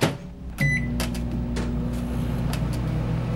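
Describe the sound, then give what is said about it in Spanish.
A microwave oven heating pizza gives a short electronic beep, then settles into a steady low hum with a few faint clicks as it runs, with no voices. “Por favor, pon la pizza en el microondas.”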